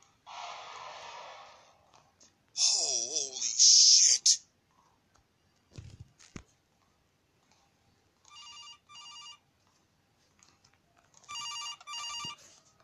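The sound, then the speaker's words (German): An electronic telephone rings twice in a horror video game with animatronics, each ring a short buzzy trill separated by quiet. Earlier come a hissing burst, a shrill screeching noise and a couple of sharp clicks. “Ich muss hier den Anruf annehmen.”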